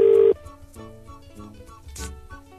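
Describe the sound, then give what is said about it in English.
UK telephone dialing tone: a loud, steady, low-pitched continuous tone holds for about a third of a second, then cuts off abruptly, leaving quieter, unrelated sounds. “That's a UK dialing tone.”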